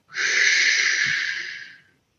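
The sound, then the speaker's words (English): A single long exhalation empties the lungs completely during a relaxation breathing exercise: a steady, breathy rush of air that starts quickly, holds for well over a second, then fades out, with no voice. “you want to exhale your lungs completely. Relax your shoulders, relax your neck, and breathe out.”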